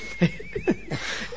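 A brand-new chair creaking as someone shifts in it, giving a few short, squeaky squeals with a wavering, whine-like pitch, fairly faint and alone.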